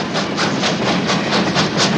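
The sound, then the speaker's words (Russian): Steam locomotive wheels roll fast along railway rails over snowy ground, making a steady, loud rumbling roar with a regular rhythmic pulse running through it. “По ним, быстро вращаясь, катятся колеса паровоза.”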